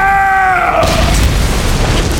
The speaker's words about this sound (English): The floor seemed to explode upward in a blinding flash of light.